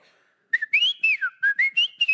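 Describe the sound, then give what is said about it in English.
A person whistles a high-pitched call in a store, a quick series of short, bright notes that swoop up and down in pitch, clear and alone against a quiet background. “I whistle. But I don't just, because I whistle all the time. I whistle through stores.”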